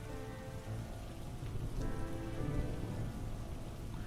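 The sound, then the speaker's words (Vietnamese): Steady, heavy rain falls at night on an open road, a dense even patter that stays loud for the whole stretch with no clear break. “Trời đã bắt đầu chuyển mưa, sấm sét trên bầu trời giáng xuống.”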